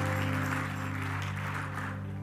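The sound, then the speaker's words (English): An audience claps in church to welcome friends and guests, a steady wash of applause running over a sustained low instrumental tone that continues throughout. “we want to give you a warm New Life Apostolic welcome with a round of applause, welcoming you here today.”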